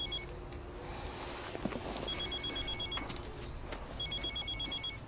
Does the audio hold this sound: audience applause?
no